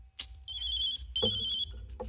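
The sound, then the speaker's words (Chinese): A telephone ringtone plays two short bursts of a high, steady electronic tone with a brief pause between them, fairly faint over a low background. “电话。”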